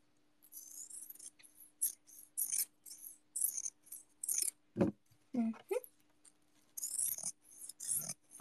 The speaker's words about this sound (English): Just cutting some stuff.